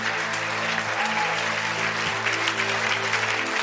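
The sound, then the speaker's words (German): Audience applause at a church worship service, a full, steady roar of many hands clapping at constant loudness for a few seconds without pause. “Gebt mir mal einen kräftigen Applaus.”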